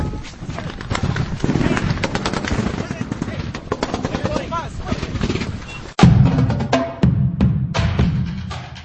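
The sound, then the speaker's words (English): Gunfire exchange between rebel and loyalist fighters in Libya: dense, rapid bursts of sharp cracking shots, loud and continuous, with a heavier blast around the middle followed by more fierce volleys. “It started off in front of the room, seemingly taking a pot shot across the room, something in the distance. A lot of our fighters then opened up. Then there was some big return fire.”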